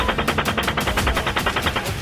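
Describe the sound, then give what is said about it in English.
Automatic gunfire during a military engagement: a long, rapid burst of many evenly spaced, loud shots in a steady rhythm with no pauses. “shooting. All right, we just engaged all 8 individuals.”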